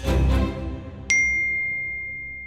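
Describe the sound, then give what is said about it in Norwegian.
A phone notification ping warning of a login attempt on a social media account: a single bright, high ding with a sustained ringing tone that slowly fades, following a brief stretch of low, muffled noise. “Da sa det plutselig pling, noen prøver å logge seg på eh, Instagrammen din. Og pling, noen prøver å logge seg på Facebook.”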